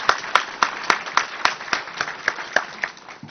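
Audience applause welcoming a guest's spouse at a meeting: a steady run of many sharp, evenly spaced claps at moderate loudness, with no talking over it.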